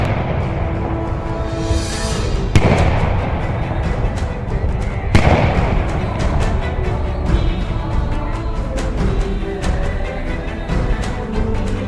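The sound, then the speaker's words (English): Cannon salute fired in celebration from forts and arsenals, heard as two sharp, heavy booms a few seconds apart over a steady, rumbling background of noise. “Secretary Stanton has ordered a salute of 200 guns to be fired from every arsenal, fort, and military headquarters in the United States in celebration of the event.”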